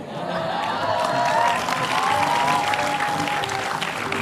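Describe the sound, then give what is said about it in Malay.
Audience applause at a talk show, a loud, steady wash of many hands clapping that holds evenly for about four seconds with no voices standing out. “Pakai tepuk tangan lagi.”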